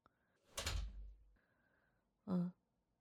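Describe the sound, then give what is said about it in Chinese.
Office door being closed: a soft scraping swing, then after a pause a short, solid thud as it shuts, faint overall. “进来吧，把门关上。”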